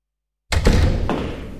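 A house door being shut, in a short radio advert: a sudden heavy thud breaks the silence, followed by a lingering rattle and a couple of softer knocks.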